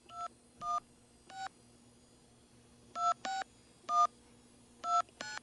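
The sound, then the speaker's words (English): Telephone keypad being dialed: eight clear, two-toned beeps, three spaced evenly, then a pause, then five more in an uneven rhythm, with a faint steady hum underneath. “Here at one of the more smoother segments we always have on the show, dialing the telephone.”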